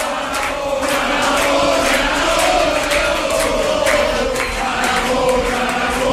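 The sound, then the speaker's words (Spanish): Applause at a party headquarters on election night, with continuous dense clapping blended with crowd noise at a steady, loud level throughout. “Aplausos en la sede de la Chunta.”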